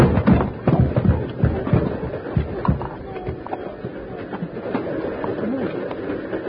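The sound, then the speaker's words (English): A radio-drama sound effect of a train pulling away, in a 1950s Western adventure, with rhythmic chugging and scattered sharp clanks that start loud and gradually fade. “Why didn't you get off the train before it started?”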